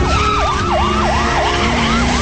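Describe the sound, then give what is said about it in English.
A police car siren wails in a fast, repeating yelp, its pitch sweeping up and down in quick regular cycles, loud and continuous with no voices. “A police car pulls up behind him.”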